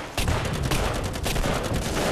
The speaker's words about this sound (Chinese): 果然有埋伏，全体射击！